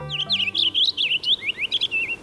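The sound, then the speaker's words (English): Purple finch singing from a maple tree: a rapid, high-pitched warbling run of many short, slurred notes, loud and nearly continuous, with only brief gaps between phrases. “purple finch. It's perched in a maple tree, singing.”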